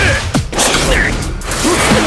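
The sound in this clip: A full-swing punch whooshes through the air during a sparring fight, heard as loud, dense swishes over a busy, sustained background.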